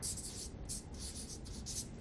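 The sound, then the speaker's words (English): Marker squeaks against a board while a big circle is drawn, several short, high, scratchy strokes coming in quick bursts with brief gaps between them, fairly faint overall. “All right, let's draw a big circle here. This is a circle of disciples.”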